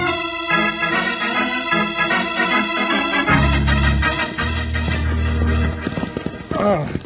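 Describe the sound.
Clip-clop of horse hooves while riding, steady rhythmic hoofbeats under a loud musical score.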